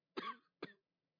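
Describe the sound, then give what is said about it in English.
Two short coughs from a dying man coughing up blood in an audio drama, the first longer and the second briefer, faint and isolated against silence. “He just starts coughing up blood, trying to stave off his death for a few more precious moments.”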